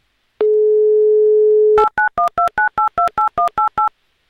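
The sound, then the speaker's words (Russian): Telephone dialing: a steady dial tone holds for over a second, then gives way to a quick, even run of about nine keypad beeps as a number is dialed, each beep a short two-pitched tone, loud and with no voices. “Ну, сначала соединение, конечно же. Все, писк был, значит, гудки тоже начинают бежать.”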